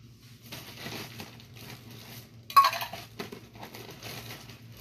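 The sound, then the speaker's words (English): Ice clatters into a cocktail glass while a bourbon cocktail with egg white and citrus is being made: a continuous run of crunchy clinks and rattles, peaking in one sharp, loud burst midway, over a steady low hum, with no talk. “At this point, fill my glass with ice.”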